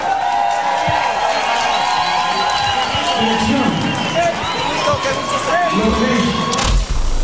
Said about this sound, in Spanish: Un aplauso para Vacilos.